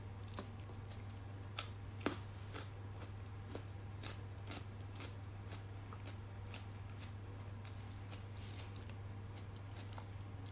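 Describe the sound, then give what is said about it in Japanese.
Faint crisp bites and crunches of raw vegetable sticks, eaten during a solo drinking session in a business hotel room: many small scattered clicks over a steady low hum, with two slightly sharper snaps near the start. “なんかやっぱ一番美味しいわこの野菜スティック”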